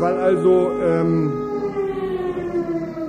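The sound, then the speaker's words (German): A district civil defense fire siren wails loudly with a harmonic-rich tone. Its pitch dips and then rises in a slow undulating sweep over a few seconds, with no speech over it. “Wir haben hier die Sirene für den ganzen Landkreis. Also wenn irgendwo was brennt, dann geht hier die Sirene los.”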